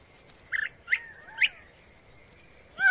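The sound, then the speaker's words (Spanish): A Gambel's quail calls: three short, bright chirping notes at an even pace, then a louder call that starts at the very end. No other sounds stand out. “Con su tocado vistoso, el colín de Gambel es todo un mujeriego. Él y su compañera ya tienen una creciente prole.”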